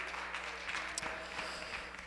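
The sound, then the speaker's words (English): A church audience applauds in praise of the Lord: a dense, quiet wash of overlapping clapping with no clear individual beats, steady throughout. “Why don't you applaud the Lord for his goodness?”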